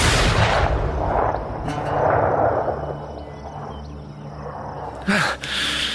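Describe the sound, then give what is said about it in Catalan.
A single pistol shot firing a blank cartridge in the cold. A short, sharp crack comes near the end, over a steady, rumbling noise background. “Disparo.”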